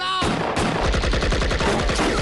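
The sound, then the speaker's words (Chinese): Rapid gunfire from a wartime battle against Japanese positions, loud machine-gun-like bursts of shots crackling in quick, continuous succession with no pauses between them. “混账，给我开枪！”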